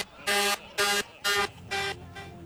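Tractor-trailer truck horn honking in five short, bright blasts of steady pitch with brief gaps between them, the last ones somewhat fainter.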